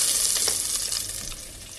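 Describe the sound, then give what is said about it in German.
Hot oil sizzles steadily as seasoned pieces are seared in a pan, a dense, even crackle that holds through the whole stretch and eases off slightly toward the end. “So, das halt, Öl wird heiß. Wir nehmen jetzt die Kallen, Gewürz und dann rein damit. Schön anbraten lassen von allen Seiten.”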